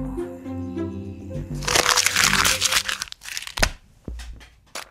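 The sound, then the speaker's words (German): Paper being folded into an origami crane gives bursts of crisp crinkling and crackling, then a few sharp, separate creasing snaps, all over a steady low tonal background. “Knicken Sie eine Spitze als Kopf knapp nach unten und öffnen Sie sie wieder. Falten Sie den Kopf des Origami-Kranich mittig ein, die Flügel des Origami-Kranich nach unten falten.”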